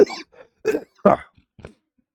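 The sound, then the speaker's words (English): A few harsh, rough coughs come in uneven bursts, one of them louder than the rest, separated by short silences and followed by a faint final cough. “Oh, sorry about that. I had a cough.”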